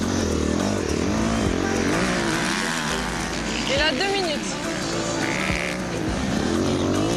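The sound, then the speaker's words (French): A motorcycle corners, its engine note wavering up and down in pitch, with a steady rough roar underneath that briefly dips before building again. “J'essaye de faire virer la moto, mais je trouve pas d'appui.”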